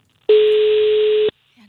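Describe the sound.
A ringing tone from an unanswered telephone call: one steady, mid-pitched beep lasting about a second, followed by near silence.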